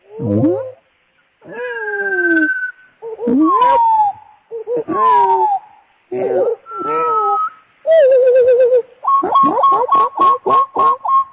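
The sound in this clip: Bird calls play as loud, sliding whistled phrases separated by short pauses, then end in a quick run of repeated high notes.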